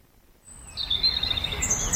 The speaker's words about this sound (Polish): Lubię słuchać ptaków, to jest takie kojące.